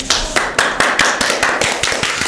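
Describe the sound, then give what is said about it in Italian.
Clapping after a studio recording take: sharp, distinct claps at a quick, slightly uneven pace, many in a row, loud and without voices. “Applauso!”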